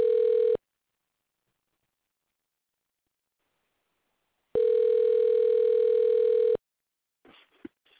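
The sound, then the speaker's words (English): Telephone ringback after dialing: a brief steady mid-pitched tone, then a longer two-second tone several seconds later, followed by a few faint clicks. “I wonder if it's going to be a good time to call. Let me see here. Gonna make sure I'm dialing it right.”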